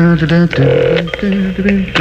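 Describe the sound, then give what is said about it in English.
Telephone number being dialed on a touch-tone phone: a quick run of short, steady electronic beeps at a few different pitches, separated by brief gaps. “I think I'll call my mommy. I think that's what I'll do. I'll call my mommy right here.”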